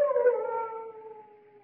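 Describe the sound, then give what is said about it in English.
Large dogs howl at a chateau, a single long, mournful howl that sags slightly in pitch and slowly fades, quiet and alone. “Only the dogs, monsieur. They keep many dogs, large dogs at the Chateau d'Azay.”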